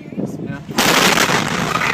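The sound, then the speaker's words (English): A fertilizer chemical storage facility explodes in West, Texas. A brief quieter stretch with voices ends abruptly in a loud, roaring blast that stays loud and rumbling to the end. “it was 1 year ago this week when a fertilizer chemical storage facility exploded in the tiny Texas town of West.”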